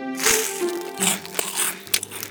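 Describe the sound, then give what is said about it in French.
Crisp crunching as a baguette crust is broken and bitten at a bakery counter, a few sharp, dry cracks spread over a steady tonal backdrop. “chaque fois qu'elle passe derrière le comptoir, Félicité casse un crouton, deux croutons, trois croutons et elle croque”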